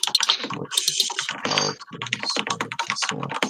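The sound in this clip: Keys clatter on a computer keyboard as notes are typed, rapid clicking strokes in quick bursts with brief pauses between them, heard alone.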